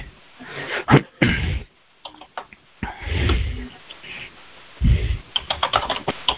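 Irregular clicking of notes being typed on a computer keyboard, quick taps arriving in short bursts separated by pauses, with no talk.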